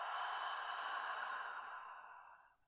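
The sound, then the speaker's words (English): A long breath is exhaled through an open mouth onto the palm, as if fogging it up. It makes a soft, airy hiss that holds steady, then fades out over about two and a half seconds, alone. “Open your mouth, breathe onto your palm like you're fogging it up.”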